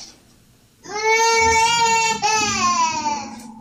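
A baby cries loudly in a sustained, wailing cry with a strained tone, spread over two long breaths. The pitch sags slightly toward the end, and faint background sounds come before the crying starts.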